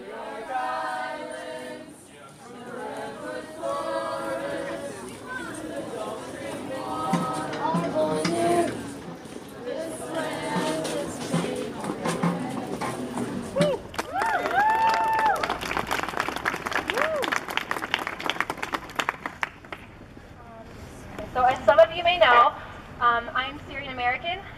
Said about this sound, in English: This is the sound of IU students marching in protest outside the sample gates last December.